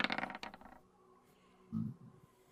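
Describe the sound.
Dice rolled during a tabletop roleplaying game make a quick clatter of rapid, bright clicks that fades within about a second, followed by a quiet stretch and a brief, softer low knock.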